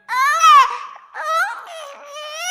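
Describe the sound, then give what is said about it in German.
Wailing baby-style crying in a children's song: two long, loud, wavering cries separated by a short break, the first rising and then dropping in pitch. “Ich hab ein Baby, das kann so gut schreien, schreien, schreien.”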